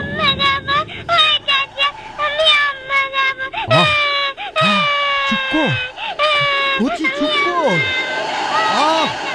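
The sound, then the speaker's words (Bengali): A person crying and wailing in loud, sustained, wavering high-pitched cries that bend up and down in pitch. The wails run almost continuously, with only brief catches and sobs between them. “কাঁদিস না, কাঁদিস না, চুপ কর, চুপ কর না, চুপ কর”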